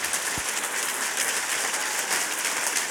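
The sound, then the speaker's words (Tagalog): A church audience claps during worship: many hands applaud at once in a steady, dense patter, with no separate beats, holding an even level throughout. “Palakpakan natin ang Panginoon sa kanyang presensya. Ipikit ninyo yung mga mata. Ipikit nyo. Palakpakan nyo siya.”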